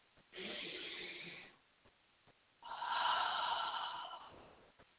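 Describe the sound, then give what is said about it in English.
Two long, deep breaths during a chakra healing session, each a soft, broad rush of air lasting over a second, separated by a short pause; no talk. “And you hear my deep breath, right?”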